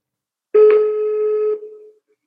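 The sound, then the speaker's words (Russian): A telephone ringing tone as a call is placed: one steady electronic tone lasting about a second, then tapering away, heard alone. “Сейчас я попробую его набрать, подключить к нашему подкасту и спросим у него кое-что.”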